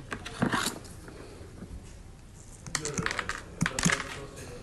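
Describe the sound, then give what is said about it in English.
Cutting of excess cable wires before fitting a plug: a few sharp snipping clicks in small clusters, with soft rustling handling noise between them and no voices. “Okay, so now we obviously have a whole bunch of excess. We need to cut that off.”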